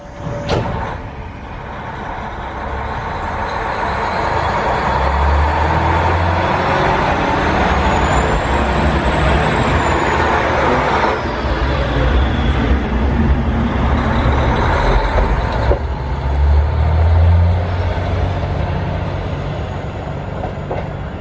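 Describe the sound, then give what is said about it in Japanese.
A KiHa 40 diesel railcar departs an unstaffed station, its engine, refitted with a higher-horsepower unit, roaring loudly and steadily alongside rumbling rail noise for about twenty seconds. “このキハ40の、はい、出発する時の音を聞いていただこうと思います。”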